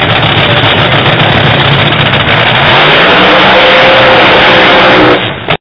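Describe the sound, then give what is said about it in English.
Loud racing car engine revving at Indianapolis, a dense, sustained roar that holds steady for about five seconds before cutting off abruptly. “We all love racing and the sound of racing, but there's just something we talk about that sound.”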